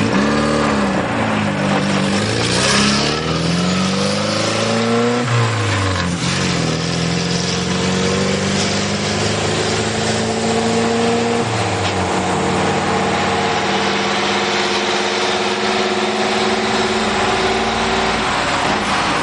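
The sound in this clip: Engine of a hearse turning around and driving off along a road toward Bayamo: a steady motor drone whose revs climb a couple of times early on, then settle into a long, gradually rising hum as it pulls away.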